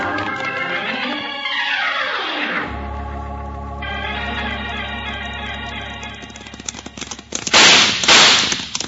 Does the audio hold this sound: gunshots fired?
yes

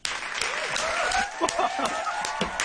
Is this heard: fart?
no

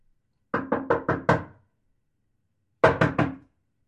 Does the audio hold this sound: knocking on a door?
yes

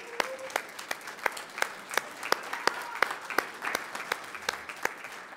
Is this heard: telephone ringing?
no

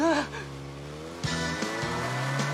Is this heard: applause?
no

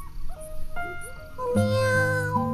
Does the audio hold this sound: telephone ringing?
no

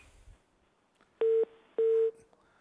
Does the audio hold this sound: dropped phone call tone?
yes

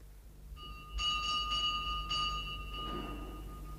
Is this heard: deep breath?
no

